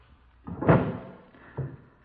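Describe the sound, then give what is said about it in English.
Desk drawers in an office are pulled open, giving a faint sliding scrape with a louder knock, then a second shorter bump a moment later. “Let's have a look in the desk drawers. Right. Empty. This one's empty, too.”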